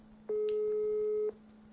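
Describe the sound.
A telephone ringback tone from a call to a friend that goes unanswered: one steady, mid-pitched beep lasting about a second, heard alone against quiet background noise.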